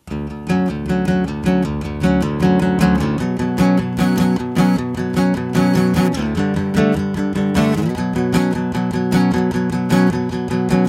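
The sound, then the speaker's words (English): A simple riff from a band's song repeats over and over over a steady, pulsing beat. The instrumental passage is loud and even throughout, with no singing. “It's a very simple riff that sounds like this.”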